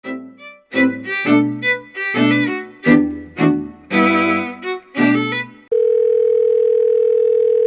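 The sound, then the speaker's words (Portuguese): A steady telephone tone for a phone call holds loud and unbroken for about two seconds at the end, after a stretch of other tonal, shifting sounds. “A Vilma liga para ele e o acorda”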